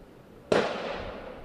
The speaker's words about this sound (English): Teams blast clay discs out of the sky or pop holes through paper targets for points.